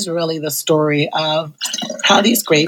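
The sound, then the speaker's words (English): Champagne is poured, a light trickling, dripping liquid sound under a person speaking steadily throughout. “that's the sound of me pouring champagne”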